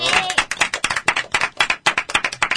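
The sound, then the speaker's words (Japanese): Applause from a small studio audience, a dense run of quick hand claps with uneven rhythm, fairly loud and steady throughout, with voices mixed faintly underneath. “拍手”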